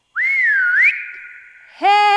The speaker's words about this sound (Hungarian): Kimegy a pitvarba, s nagyot füttyent.